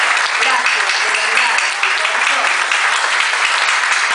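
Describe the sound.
Audience applause at a speech at an industrial park in Cañuelas: loud, dense, continuous clapping from a crowd throughout, with a voice faintly audible beneath it at times.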